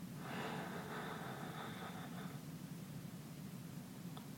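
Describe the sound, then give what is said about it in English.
A slow, deep breath is drawn in through the nose during a guided morning prayer breathing exercise. It is soft and airy, swells for about two seconds, then fades into quiet. “And let's begin by taking three cleansing breaths, inhaling through the nose and exhaling through the mouth. Inhale.”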